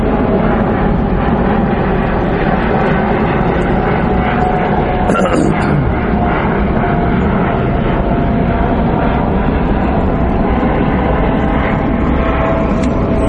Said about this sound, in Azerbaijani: təyyarə keçsin inşallah.